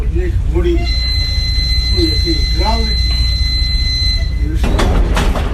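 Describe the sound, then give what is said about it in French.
Rumble of a narrow-gauge passenger train on a single line opened in 1895, with a steady high-pitched squeal running through it, voices talking over it, and a louder burst of clatter near the end. “C'est un train unique, le seul train de voyageurs à circuler sur une voie étroite.”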